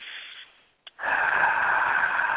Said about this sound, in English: Let's all take a breath together.